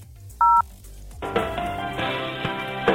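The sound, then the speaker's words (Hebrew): A single short telephone dialing tone beeps as a Breslov Hasid calls the Prime Minister's Office, followed by a steady, dense tonal sound that runs to the end. “הנה חסיד ברסלב מחייג ללשכת ראש הממשלה. בוא נראה מי ענו לו שמה.”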